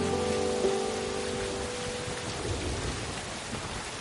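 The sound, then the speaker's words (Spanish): Steady rain falling, a dense, even hiss with a low rumbling undertone that holds throughout. “Camina bajo la lluvia. Lleva puesto un chubasquero.”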